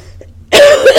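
A loud, harsh, throaty cough bursts out after a near-silent opening, with a second rough push of breath just before it ends.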